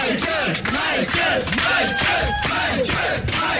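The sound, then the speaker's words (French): A loud ovation from cheering fans for a performer, a dense crowd roar packed with overlapping yells, whoops and shouts that stays strong throughout. “alors que là, il y a toujours l'ovation, bien sûr, de ses fans qui sont venus nombreux de la France entière, de l'Europe entière.”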